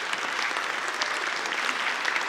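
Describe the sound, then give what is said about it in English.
A church audience applauds during a service with dense, even clapping from many hands. The applause is steady and fairly soft throughout, with no pauses or rises. “you can clap for that.”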